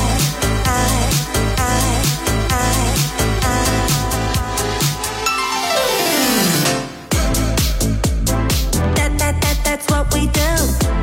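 Upbeat electronic dance track teased as a summer release, with a steady pounding beat and bright layered synths; midway a long descending synth sweep slides down before the full beat crashes back in.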